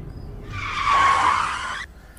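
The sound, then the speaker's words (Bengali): A car's tires squeal in a skid as it brakes to a stop. The high, sustained screech lasts over a second and cuts off abruptly above a low engine rumble. “গাড়িটা একবার থামাতো”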